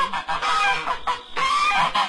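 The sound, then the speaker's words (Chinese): Large white geese honk at a farm's greenhouse area beside a fruit-picking orchard. Several loud, raspy honks come in quick succession with only brief pauses between them. “现在叽叽呀呀还有鹅的声音都混淆在一起”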